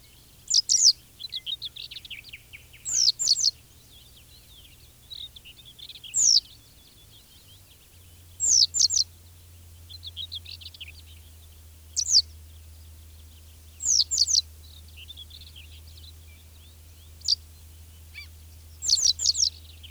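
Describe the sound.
Yellow wagtail song: many short, high, thin chirped phrases, each a quick burst of a few notes, repeated at irregular intervals with quiet gaps between them over a faint low hum.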